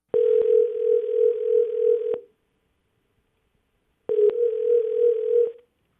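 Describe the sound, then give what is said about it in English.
A telephone line tone plays while a call is placed to a listener. Two long, steady tones at one pitch each last about two seconds, separated by silence, with a faint click at the start of each. “Let's see if we can get Haley on the line. Hopefully no voicemails.”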